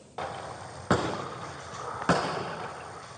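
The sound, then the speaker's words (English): Gunshots fired from the rear window of a house toward deputies, during a half-hour shootout: three sharp, loud bangs, each followed by a lingering rumbling decay, spaced unevenly over about three seconds, with no talk. “Shooting out the rear window toward my direction.”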